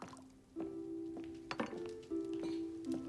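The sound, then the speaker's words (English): Tea is poured into mugs beside a fire. Soft knocks and clinks of the mugs accompany a liquid pour with a ringing, resonant tone that shifts slightly as each mug fills. “Downstairs, Kevin is pouring tea in front of the fire.”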